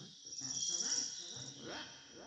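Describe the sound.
Insects chirp in a steady, shrill, high drone beside a road climbing a hill, with indistinct voices talking faintly underneath throughout.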